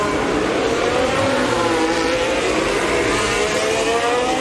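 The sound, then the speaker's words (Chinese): Lando Norris's McLaren Formula 1 car, running with a power fault, comes out of a tunnel. Its engine drones in a steady, continuous note with little change in pitch. “兰多诺里斯也出隧道。 我们看明显的，我们听到声音，就是这个车的动力工作不是很正常了。”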